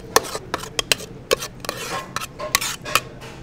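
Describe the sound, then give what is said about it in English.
Serving spoons clink and scrape against a dish while cranberry relish is dished up, with many sharp metallic taps in an irregular rhythm and soft scraping between them. “Let me grab a couple spoons. So here we go, we're just gonna dish it up.”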